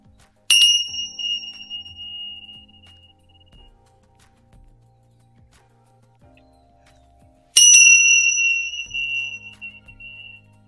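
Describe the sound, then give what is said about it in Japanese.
A Tibetan bell is struck twice, several seconds apart. Each strike gives a sharp, clear metallic onset and a bright, pure ringing tone that fades slowly into near silence. “それでは、チベタンベル鳴らしていきましょう。”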